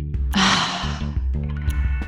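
A deep breath is drawn in with a sharp, breathy rush, followed by a softer release, over a steady background of sustained tones.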